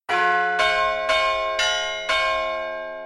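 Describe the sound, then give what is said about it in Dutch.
Carillon bells from a town-hall tower strike five evenly spaced, bright metallic notes, each ringing on with rich overtones that decay slowly into the next, loud and alone. “Elk verhaal wordt afgesloten met de carillon-jingle.”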